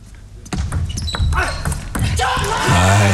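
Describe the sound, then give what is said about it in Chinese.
A table tennis ball is served and hit at nine-all in a professional match, a few sharp, crisp clicks of ball on paddle and table, with a voice entering near the end. “9平，现在梁靖昆发球，”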